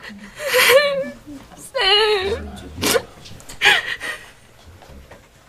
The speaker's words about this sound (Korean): 네가 왜 울어?